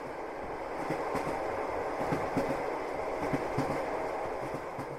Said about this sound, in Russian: Мерный стук колес ворвался в мои уши, и я открыл глаза.